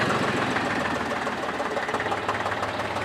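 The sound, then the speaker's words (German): Air-cooled three-cylinder Porsche tractor engine running steadily, a loud, even, rough mechanical clatter with a rapid knocking pulse that holds throughout without pause. “das ist jetzt ein Dreizylinderklang, Dreizylinder luftgekühlt, also das zweitgrößte, was damals ähm, gebaut wurde von, von Porsche und entwickelt wurde.”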